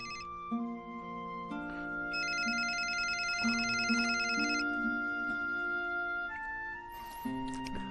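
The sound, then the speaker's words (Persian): A telephone rings with an electronic melodic ringtone, stepping tones repeating steadily for the whole clip at a fairly loud level, with no voices. “پروفسور زنگ میزنه.”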